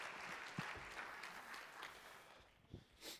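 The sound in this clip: Faint applause from a church audience cheering the past year and welcoming the pastor back to the stage, a steady wash of clapping with a few sharper claps standing out.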